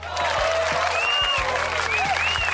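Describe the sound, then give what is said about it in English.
Applause and cheering from a crowd, dense and steady through the whole clip, with a few high whistles rising above the clapping. “Hold on, round of applause.”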